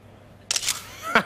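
A phone camera shutter sounding as a grandmother takes a photo: a bright, crisp snap, then a second shorter click about half a second later.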